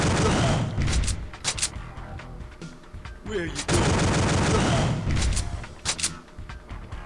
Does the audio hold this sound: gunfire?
yes

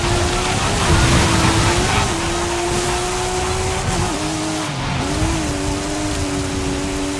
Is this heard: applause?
no

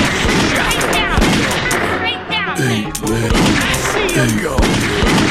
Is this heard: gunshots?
yes

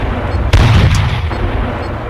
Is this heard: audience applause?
no

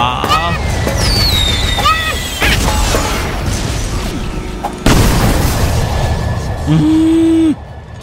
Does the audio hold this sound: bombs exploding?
yes

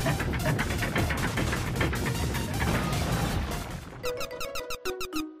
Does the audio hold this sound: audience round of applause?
no

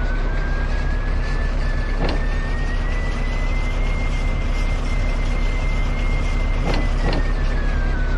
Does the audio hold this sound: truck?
yes

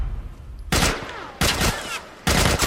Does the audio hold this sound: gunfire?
yes

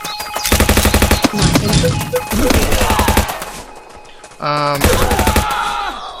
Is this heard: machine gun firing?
yes

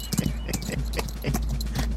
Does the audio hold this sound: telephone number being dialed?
no

